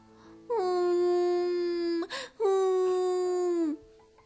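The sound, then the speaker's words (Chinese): A voice imitates a cement mixer truck character crying: two long, steady wailing sobs with a brief sniffling catch between them, alone and fairly clear. “咦，是水泥搅拌车哥哥在哭。你怎么啦？”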